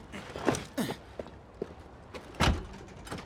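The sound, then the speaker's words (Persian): A balcony door being handled and locked, a few short, faint knocks and clicks separated by brief pauses, with no talk. “کی در بالکن رو قفل میکنه؟”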